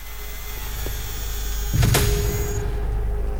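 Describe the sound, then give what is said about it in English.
A spotlight whirs into life and swivels into position, giving a steady mechanical motor hum with a brief louder surge midway before the drone settles again. “They tread slowly into E Block, and a spotlight whirs into life, spinning slowly into position and lighting up.”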